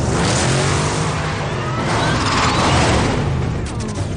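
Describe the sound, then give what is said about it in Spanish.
The Batmobile from Batman Begins starts up and spins out: a loud, continuous engine roar that revs and surges, with a brief whooshing swell near the end. “mientras en el Batmóvil... Gordon arranca el vehículo y hace un trompo con él.”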